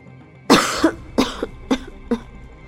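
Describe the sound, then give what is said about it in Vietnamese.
Four harsh, fairly loud coughs from someone choking on dust, each burst trailing into a short wheezy catch, spaced unevenly with no talk. “Triển Chiêu bị sặc bụi ho liên tục, ngước mắt liền thấy Bạch Ngọc Đường cũng đang bịt mũi miệng ho khan.”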